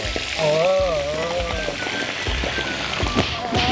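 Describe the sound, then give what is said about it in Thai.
Fish frying in salted oil in a pan: a loud, steady crackling sizzle with scattered pops, under a person talking. “โรยเกลือลงไป เวลาทอดปลาจะได้ไม่ติดก้นกระทะ ครับนี่ แล้วก็ใส่ปลาลงไปเลย”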